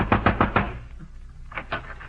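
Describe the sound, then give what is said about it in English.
A fist pounds urgently on a door on a pitch-black night: a rapid burst of four heavy knocks, a brief pause, then a few more knocks. “a neighbor crawled down the streets and pounded on the door”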